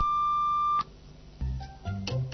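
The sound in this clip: A mobile phone sounds one steady, high, continuous beep that cuts off abruptly, followed by quieter, uneven rustling and low handling noise.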